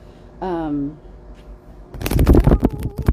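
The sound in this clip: Sacred Forest Oracle card deck being shuffled and drawn: a short voiced sound, a pause, then a dense run of quick papery riffling and rustling that grows louder toward the end.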